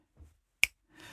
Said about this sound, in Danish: Lad os prøve, vi knipser bare, fordi nu er vi her.